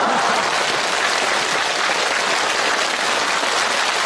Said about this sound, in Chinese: 我明白您这掌声啊是欢送人家主持人下场。